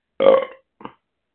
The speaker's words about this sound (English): Who keeps burping? That's me. Sorry.